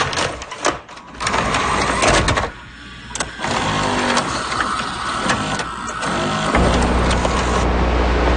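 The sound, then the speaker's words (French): An old VHS video cassette player runs with continuous mechanical whirring and scattered clicks, ending on a steadier low hum. “Ça avait presque l'air d'une machine à café. Oui, c'est ça. Mais non, c'est un VHS que vous entendiez. Un bon vieux lecteur de cassettes vidéo.”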